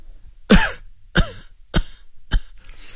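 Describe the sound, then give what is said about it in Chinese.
A sick patient coughs four times in a row. Each harsh, throaty cough comes at a fairly even interval, with no speech around them. “病人因为说得太猛，止不住连续咳嗽一阵。”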